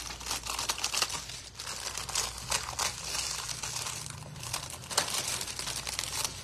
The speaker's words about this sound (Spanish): cortamos todo el exceso de la, del plástico. Cortamos todo el exceso del plástico.